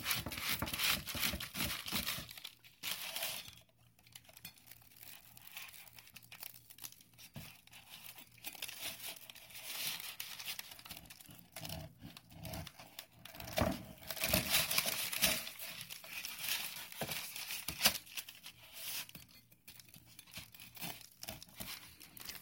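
Bread being cut through its center: a long run of crackly crunching and tearing of the crust in uneven bursts, with no talking.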